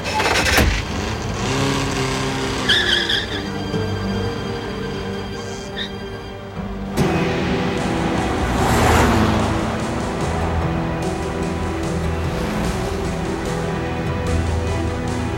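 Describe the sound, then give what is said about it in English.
A car pulls away from a terminal and drives on, its engine a steady, moderately loud drone for about fifteen seconds with a brief swell partway through. “As Nikolai's car pulls away from the terminal, the ruffians sent two other men to follow them.”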